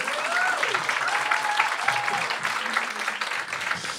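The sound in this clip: Audience applause, a dense, steady wash of clapping that holds at an even loudness from start to finish, with a few tonal voice or whistle sounds rising briefly above it.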